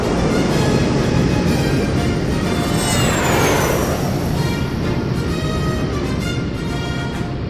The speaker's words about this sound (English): What the hell was that? That's a thrust lifter. Give her some throttle and try it out.